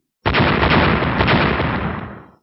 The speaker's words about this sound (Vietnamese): Những tiếng nổ lớn kinh thiên động địa